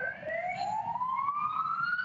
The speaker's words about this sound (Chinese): 现在你可以看到，现在警车都在推进哈。